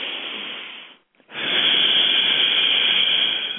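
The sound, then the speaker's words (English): A long, loud breath out through the mouth, a steady airy hiss that fades into a brief pause, then resumes as a sustained, even exhale lasting several seconds. “breathe in through the nose and out through the mouth with a long and loud breath. I'm going to give you a demonstration of that.”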